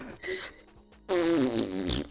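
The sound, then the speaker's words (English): A fart blown into a phone during a late-night prank call starts with a softer, buzzy sputter, then, after a short gap, a loud, long, wavering flappy blast that trails off raggedly. “you call in the middle of the night just to fart on your phone and then drop the call”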